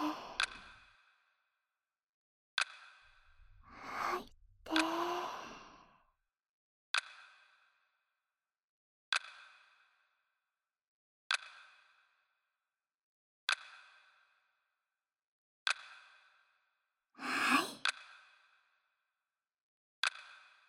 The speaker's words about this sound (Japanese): 吐いて。吸って